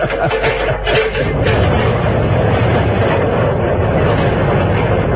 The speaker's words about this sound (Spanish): el mecanismo se puso en marcha. Lentamente el brazo de acero de la torre ascendía con el avión enano en cuyo interior Calimán y Solín